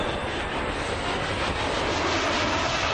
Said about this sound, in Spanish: El avión acelera.